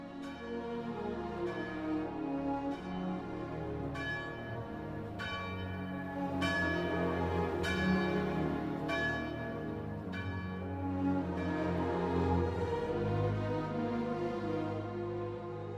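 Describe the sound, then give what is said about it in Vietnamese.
A church bell rings for evening prayers, striking many times in a steady, unhurried rhythm. Each stroke is loud and clear, and its ringing tone sustains and overlaps the next strike. “Sau lưng anh, một hồi chuông nhà thờ vừa cất lên, nhắc nhở giáo dân đã đến lúc tụ tập đọc kinh chiều.”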